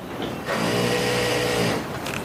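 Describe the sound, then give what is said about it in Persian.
A sewing machine whirs in a tailor's workshop: one continuous run of steady, buzzy motor hum with a mechanical rattle, starting abruptly and stopping after about a second, with quiet surroundings before and after. “جای خیاط خونه است. به بهونه خیاطی اومدم”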